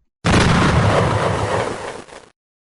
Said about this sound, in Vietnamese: Đó là một tiếng nổ vang trời